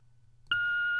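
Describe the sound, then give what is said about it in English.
A turned-down answering machine buzzer: an abrupt, steady electronic tone that cuts in about halfway through after a faint low hum and holds at an even level to the end. “we turned our answering machine buzzer down. It's not going to blow your eardrums out anymore.”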